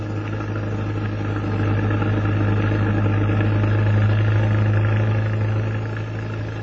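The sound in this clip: A car engine runs steadily during a drive, a low, even hum that swells slightly midway and then eases, with no voices over it.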